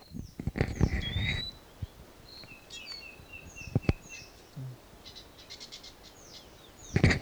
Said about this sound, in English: Stop. Wild bird.